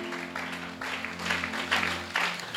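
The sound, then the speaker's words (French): Soft applause from a worship audience praising the Lord, a steady patter of clapping that swells slightly in waves over sustained held tones. Overall the sound is fairly quiet. “Acclame encore le Seigneur.”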